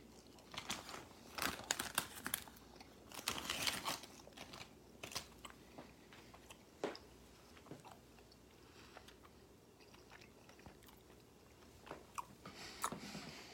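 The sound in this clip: Chewing and crunching on a sugary blue candy, with many soft bites and crunches in irregular clusters and some light wrapper crinkling, all faint.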